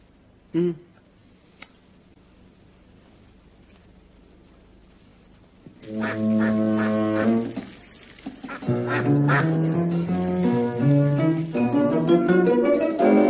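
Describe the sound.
Nasal duck quacks fill the second half after a mostly quiet opening with one short early call. They come loud and close together in a long, busy run.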